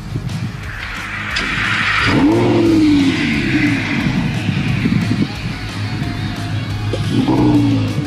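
A powerful car engine starts and revs hard, roaring loudly for a few seconds with a rising then falling whine, settling back, then revving again near the end.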